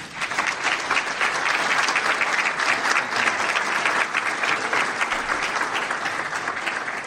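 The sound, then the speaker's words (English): Warm audience applause welcomes a speaker at a Christian fellowship gathering. The clapping is dense and steady, holding at an even level with no talk over it for about seven seconds. “everybody, please give a warm welcome to Tony Bohannon”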